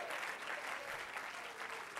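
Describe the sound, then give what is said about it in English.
A church audience claps hands in dense, continuous applause, soft and steady throughout the short span without a break. “Let's clap our hands into him and bless his name.”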